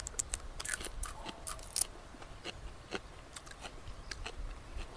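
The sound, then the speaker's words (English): Biting into and chewing a raw stalk of Alexanders, a wild celery, produces many faint, crisp crunches and crackles in an irregular rhythm, with no talk. “Can I eat this entire stalk? Use the stem.”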